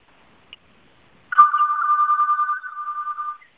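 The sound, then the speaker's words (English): A mobile phone rings with a single bright, warbling trill that lasts about two seconds after a brief faint click. The ring is loud and stands alone. “That's my phone. It looks like a robocall.”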